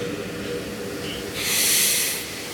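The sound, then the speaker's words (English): A deep breath, heard as one broad, airy rush of breath that swells and then fades. A faint steady hiss sits underneath, and no one speaks. “maybe we can start by just taking a deep breath, right? Deep breath.”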